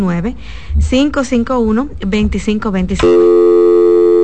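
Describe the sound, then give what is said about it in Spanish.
A phone call drops on a radio call-in line. Someone talks for about three seconds, then a steady electronic line tone cuts in and holds unchanged to the end. “Otra vez entró la llamada y se cayó.”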